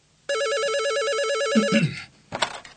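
A telephone rings with an incoming call from a kidnapper, giving a loud, warbling electronic trill that lasts about one and a half seconds before it cuts off. A short clatter of the receiver being handled follows.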